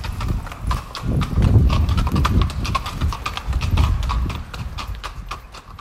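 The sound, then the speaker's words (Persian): Hooves of a horse-drawn carriage clip-clop on a street in the historic centre beside St. Stephen's church, a steady run of many sharp hoofbeats that stays loud throughout. “کنار کلیسای اشتفان امکان اسب سواری وجود داره و یه کالسکه هایی هستن که شما میتونید سوار بشین و دوری بزنین در بافت تاریخی”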